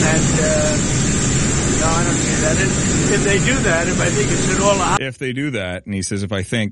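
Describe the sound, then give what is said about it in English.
A steady, loud jet engine roar drowns a man speaking in a recorded interview, then cuts off abruptly, leaving his voice clear and alone. “Now the audio is pretty bad because they're right beside a jet engine”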